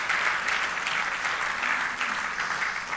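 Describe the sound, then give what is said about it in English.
An audience at an Easter Sunday church service applauds, a steady, dense wash of many hands clapping at an even level throughout, with no voices rising above it. “So can we welcome those folks in the gymnasium as well this morning? Let's give them a hand.”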